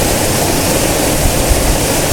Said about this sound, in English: this waterfall is really nice.